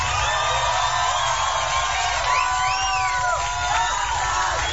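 Audience cheering and whooping, a loud, constant crowd roar threaded with high whistles and rising and falling shouts that stays strong throughout.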